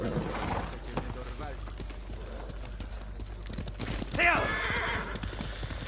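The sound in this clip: Horse hooves clip-clop in a video game, a rhythmic run of hollow knocks beneath a man talking throughout.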